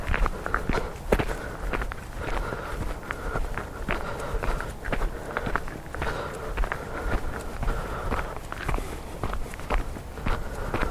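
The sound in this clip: Footsteps walk up an outdoor track in a steady, even rhythm of many crunching steps, moderately loud and continuous, with no talking.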